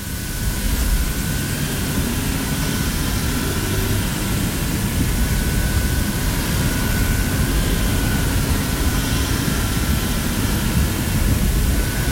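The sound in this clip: Cooling fan of an Xbox 360 Slim console running at idle on the dashboard, its larger fan spinning slowly: a steady, even whooshing rush with a faint high whine, constant in level throughout with no talking.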